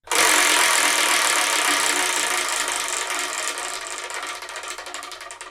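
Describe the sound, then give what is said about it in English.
A digital wheel spins to pick a manga: a dense, loud rattle of rapid clicks over a hiss, thinning and slowing as it winds down. “So I'm going to use this digital wheel and see what we're going to review in the next episode.”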